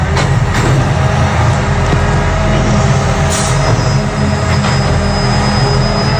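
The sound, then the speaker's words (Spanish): A garbage collection truck works a city street at night, emptying a cardboard recycling container. A loud, continuous mechanical rumble with grinding and screeching noise carries through, and a steady thin whine joins partway. “Claramente un camión de recogida de basura.”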